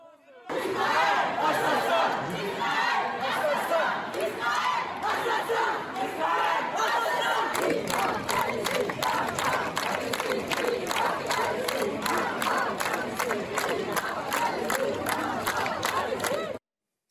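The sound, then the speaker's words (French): A large crowd chants slogans at a banned pro-Palestinian protest in Lyon: loud, massed voices shouting continuously, with a strongly rhythmic, pulsing beat in the second half. “De nombreux slogans ont été scandés, comme Israël assassin ou encore Palestine vaincra. Regardez.”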